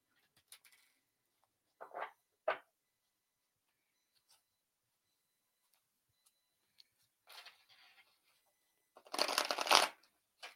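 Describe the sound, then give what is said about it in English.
Playing cards are shuffled for a card reading in sparse bursts: a few quiet riffles and taps spaced out by silence, ending with a longer, louder fluttering shuffle. “Let's pull you a few cards”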